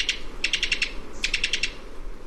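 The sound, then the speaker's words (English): Staccato call of a Cuban tody, a tiny insect-eating West Indian bird: two quick bursts of dry, clicking high notes in rapid succession, clear over faint background hiss. “This staccato call comes from the throat of a Cuban toady.”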